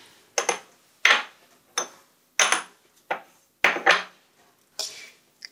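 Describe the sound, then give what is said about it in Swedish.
Green and yellow paint from small tubes being stirred in a small porcelain cup, giving crisp ceramic clinks and scrapes in a steady series of about ten short strokes, fairly quiet, with no talk. “Jag tar det färg från en tub här och klickar ut på liten porslinskopp. Ja. Blandar ihop lite”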